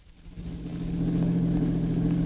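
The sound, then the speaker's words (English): A car engine rumbles as the car drives up to a boarding house, swelling in loudness over the first second and then holding a steady low hum. “Mary and Dr. Nelson are driving up to Tom's boarding house.”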